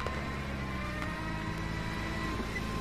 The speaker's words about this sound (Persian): ماشین پلیس دنده عقب میگیره.